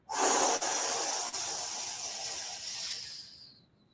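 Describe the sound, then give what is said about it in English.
A forceful, hissing exhale pushed out hard during a leg-raise exercise, loud at the start and held for about three and a half seconds, with a couple of tiny breaks, before tapering away to quiet. “So I'm gonna exhale really hard.”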